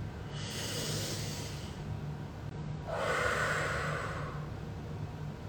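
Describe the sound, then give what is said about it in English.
A deep breath during a virtual full moon meditation circle: two long, soft, airy breaths, the second louder and fuller, over a faint steady hum. “So with that, I'm gonna take a deep breath.”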